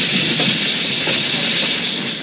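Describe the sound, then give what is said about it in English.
A train on the line near Glen Rowan gives off a loud, steady wash of hiss and rumble that holds an even level throughout, with no distinct clicks standing out. “The train's beginning to stop. Something must be the matter.”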